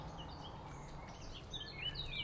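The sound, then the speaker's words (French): Faint blackcap and blackbird song from a small country road: soft, high chirping phrases over a low background hiss, growing busier toward the end. “si on s'arrête ici, bon là, fauvette à tête noire, merle,”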